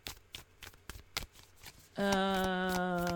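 A tarot card deck is shuffled in a series of crisp, irregular taps and riffles, after which a steady harmonic tone takes over and holds.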